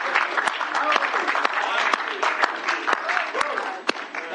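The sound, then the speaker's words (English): A church audience claps in rhythm, with crisp, regular hand claps landing about every half second over a busy bed of voices and praise. “can we all clap our hands?”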